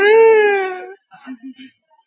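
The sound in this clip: A baby wails loudly in one sustained, slightly falling cry lasting about a second, followed by a few short, soft vocal sounds.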